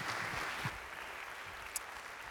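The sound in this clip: A church audience applauds a guest speaker at a Sunday morning service, a steady, dense wash of clapping that holds at an even level for the whole stretch with no talk over it.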